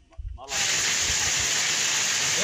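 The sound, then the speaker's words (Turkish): A heavy downpour turning to hazelnut-sized hail in Boğazlayan, Yozgat, bursts in abruptly after a moment of voice, then holds as a loud, dense, steady hiss to the end. “Yozgat'ın Boğazlayan ilçesinde sağanak yerini doluya bıraktı.”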